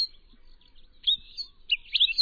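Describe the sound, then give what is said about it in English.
Short, high chirping calls of a palila, a large endangered Hawaiian finch with a bold yellow head and breast, on a volcanic mountainside on Hawaii's Big Island. A faint start gives way to a few brighter, louder bursts of calls. “High on the north face of Mauna Kea, a volcanic mountain on Hawaii's Big Island, work is underway to save one of the island's most endangered birds, the palila. The palila is a large finch with a bold yellow head and breast.”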